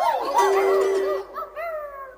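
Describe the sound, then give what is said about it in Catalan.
A dog gives drawn-out, wavering, howl-like yelps with a clear tonal pitch that bends up and down, loud at first and then briefly dropping before a final higher cry. “El gos li borda de valent.”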